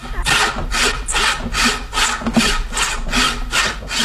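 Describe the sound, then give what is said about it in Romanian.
Sawing as the sleeves are cut off a jacket: many quick, even back-and-forth strokes in a steady rhythm, loud and rasping, with no talking. “Dacă zici tu să-i tăiem mânecile.”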